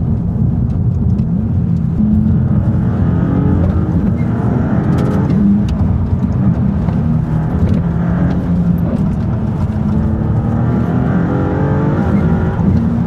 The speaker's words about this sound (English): I was just letting you all enjoy it. Just let me enjoy the sound of the engine and the exhaust.